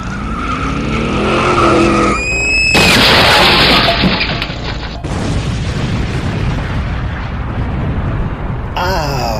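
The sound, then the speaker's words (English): Pint-sized cars race through figure-eight and loop maneuvers in a video game. Loud revving engines and screeching tire skids roar continuously, with sudden bursts and abrupt shifts in the mix. “Wow, they sure fly on those pint-sized Corvegas.”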